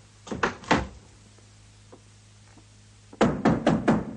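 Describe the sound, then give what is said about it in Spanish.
A door being closed, giving a few dull wooden thuds at the start, a quiet pause with faint taps, then a quick series of louder thumps and knocks. “Salieri cierra la puerta y Mozart queda a oscuras.”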